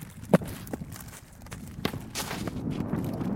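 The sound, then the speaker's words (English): Footsteps of a softball player reaching home base during a game, heard as a few faint, irregular soft thuds over quiet outdoor background noise. “This is the sound of a softball player touching home base.”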